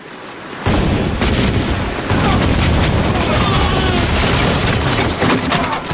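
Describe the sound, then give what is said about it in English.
Heavy cannon fire from a warship's full broadside as she passes through a narrow channel, shooting into a fortress: a sudden onset, then a dense, continuous roar of overlapping booms and rumbling that stays loud to the end. “fired her full array into the fortress as she passed, then came straight for Clomfort and his Nereid.”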